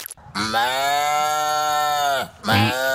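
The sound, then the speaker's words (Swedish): A person's voice imitating a cow's moo: one long, steady, harmonic lowing call lasting about two seconds, then a second call starting just before the end. “Det där var ju en människa som försökte vara en get. Du säger att det var en människa. Är det någon som säger emot? Nej, jag tror också det är en människa.”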